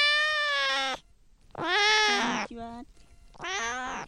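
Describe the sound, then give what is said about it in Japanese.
A pet cat meows three times, each meow long and drawn-out with a high, bright tone, and a shorter, lower cry follows the second; the cries are clear against a quiet background. “にゃんこですね。”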